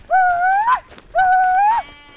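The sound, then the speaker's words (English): Sheep bleating from a flock of Churro sheep driven up the mountains to a summer sheep camp in the Four Corners. Two long, wavering, nasal bleats come one after another with a short pause between, loud and clear. “Navajo weavers are bringing a flock of Churro sheep up the mountains to a summer sheep camp on top.”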